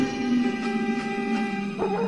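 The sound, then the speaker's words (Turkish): Village dogs barking and yelping as they attack, short barks and whimpers over a steady humming tonal drone throughout. “Köyün köpekleri ejder gibi saldırıyor. Bırakmıyor bizi yoldan”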